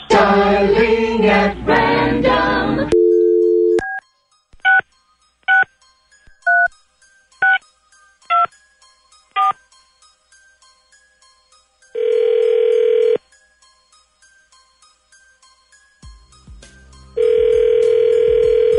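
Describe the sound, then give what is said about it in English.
A telephone number being dialed at random: a run of short, evenly spaced touch-tone beeps, followed by long, steady ringing tones. “Dialing at random.”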